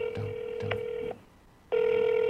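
Telephone ringing while calling someone, a steady buzzing ring tone that stops, leaves a short gap, then resumes at full strength.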